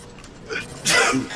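A flu sufferer sneezes in a comic sketch: a brief breathy lead-in, then one sharp, hissy burst that trails off quickly.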